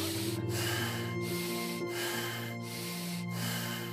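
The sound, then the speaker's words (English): Deep, fast rasping breaths are taken during a guided meditation breathing exercise. They form a continuous run of harsh, noisy in- and out-breaths with brief regular breaks. “go in deep and rapid rasping gasps, like breathe this way.”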